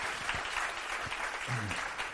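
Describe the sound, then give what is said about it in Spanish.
Warm audience applause for the speakers at a science book talk: a continuous crackle of many hands clapping, fairly soft and steady throughout. “Un aplauso enorme y cálido para ellos, para todos vosotros por estar aquí.”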